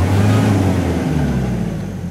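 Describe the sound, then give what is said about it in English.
A truck engine revving while stuck in deep sand on a forest road, a loud, continuous low drone with layered rumbling tones that waver slightly, heard alone. “But when the road turns to sand, it too is deep. We're stuck in sand.”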